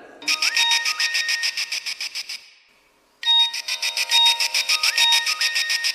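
A phone ringing on an outgoing call: many rapid, bright electronic ring pulses in two bursts separated by a brief pause, with no voices.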